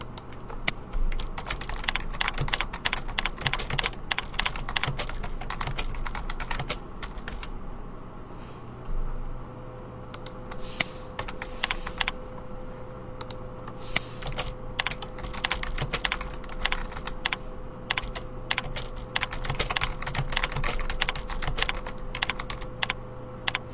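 Rapid keystrokes on a computer keyboard as course instructions are typed, a steady stream of many clicks of varying loudness running throughout without talk.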